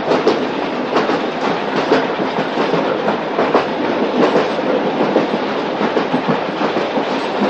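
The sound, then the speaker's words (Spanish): A steam locomotive train runs across a snowy steppe, a loud continuous rolling roar with steady clickety-clack from the wheels on the rails, unbroken throughout. “A través del humo que arroja la locomotora puede ver la luna sobre el río y el paisaje nevado.”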